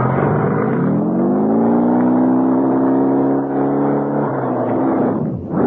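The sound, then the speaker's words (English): A messenger's motorbike races away, its engine a loud harmonic drone that climbs in pitch early, holds steady for several seconds, then drops away briefly near the end. “I grabbed the messenger's bike and raced towards headquarters.”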